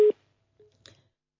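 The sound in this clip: Telephone busy signal as a radio studio control room places a call. Two short steady mid-pitched tones sound, the first loud and the second fainter, followed by faint low noise.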